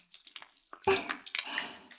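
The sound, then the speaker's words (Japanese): Wet squishing of soap lather, with soft clicky, bubbly smacks: scattered light squelches at first, then a denser, louder run of squishes that continues to the end. “石鹸の泡で、くちゅくちゅしちゃいますね。”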